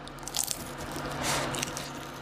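Crunchy bite into a microwaved snack with a crispy surface and melted cheese inside, a few soft, crackling crunches heard faintly on their own without talk.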